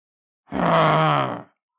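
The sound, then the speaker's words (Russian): A deep, voiced growling exhale, a person imitating an enraged orc breathing heavily like an angry bull: one strained, rough groan of about a second, loud and alone. “Орк тяжело задышал, будто сдерживая ярость. Он сделал несколько мощных выдохов, как разъяренный бык”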